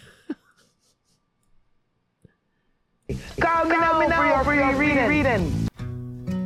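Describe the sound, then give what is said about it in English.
Music starts by accident from Apple Music on a phone. After near silence with a few faint clicks and breaths, a loud melodic track bursts in, cuts out briefly, then resumes. “Oh, that's a good song. Okay. My Apple Music started playing.”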